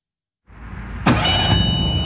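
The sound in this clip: A small motorboat engine runs as the boat heads slowly out of a small-boat harbour in Kristiansand. The rumble starts abruptly after silence, then jumps to a louder, broad steady roar that carries on to the end.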